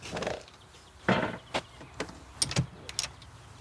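Faint clicks and knocks as the door of a rented campsite cabin is unlatched and opened: a few short, sharp bursts spaced unevenly over a few seconds, with no talking.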